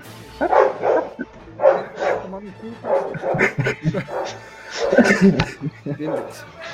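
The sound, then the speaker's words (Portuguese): A dog barks repeatedly during a tabletop role-playing game session, a run of many short, yelping barks in uneven bursts. “Todo dia que a gente vai jogar, esse corno vem latir.”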